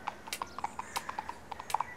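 Hooves of galloping horses thud as riders approach, a quick, uneven clip-clop of many hoof beats at steady loudness with no voices.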